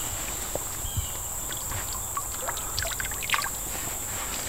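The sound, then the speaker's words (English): Flowing water from a clear, cool stream, a faint, continuous trickle and gentle splashing with small irregular bursts, heard alone without talk. “Sir, I found a stream. Over. How's it look? Clear, cool.”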